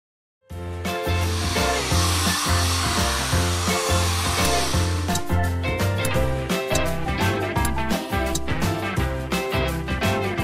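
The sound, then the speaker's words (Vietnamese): A hair dryer blows a woman's messy hair straight in a salon, a loud, steady rushing hiss that fills the first half and then cuts off, while rhythmic music plays throughout. “Cô cứ sấy cho tôi đi, sấy thẳng mái tóc lộn xộn này là được rồi.”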